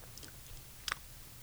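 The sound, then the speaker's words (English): Close-up mouth sounds of someone chewing candy right at the microphone, with a few faint wet clicks and smacks and a sharper double click near the end over a low hum. “I'm making mouth sounds right into the microphone.”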